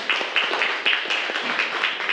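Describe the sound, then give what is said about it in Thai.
Classroom applause as students clap for their classmates: dense, steady clapping from many hands that runs through the whole two seconds at an even level, with no clear voices. “ปรบมือเพื่อนหน่อยค่ะ”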